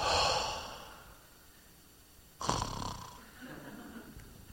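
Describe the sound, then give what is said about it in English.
A deep breath drawn in, held, then released in a sighing exhale during a group breathing exercise. A soft, airy inhale comes first, then a quiet pause, then a louder, breathy outflow that fades out. “I want you to take a deep breath in and we're going to hold it and then we'll let it out.”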